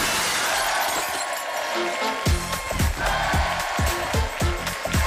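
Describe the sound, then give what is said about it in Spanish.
Something smashing to pieces: a run of many sharp, loud crashing impacts follows each other quickly through the second half, over a steady noisy background. “El sonido hecho añicos.”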